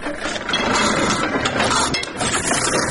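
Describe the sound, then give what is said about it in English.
Mechanical clanking and ratcheting come from a foot-powered, motorless platen letterpress weighing 360 kilograms and nearly 100 years old. The steady, busy rattle of gears and levers runs throughout without speech. “The company uses a 360-kilogram Platen letterpress machine to make its creative designs.”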